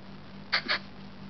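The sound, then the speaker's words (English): Two quick, faint cat meows in the background, closely spaced and high-pitched, heard over a steady low hum with no talking. “pardon the cat meows in the background if that's loud”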